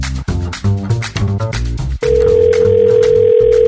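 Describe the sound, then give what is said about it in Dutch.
A steady telephone dial tone while a call is being placed, holding one even pitch for nearly two seconds with a single brief break, after a couple of seconds of music. “nu ga ik eens bellen met Rita Verdonk”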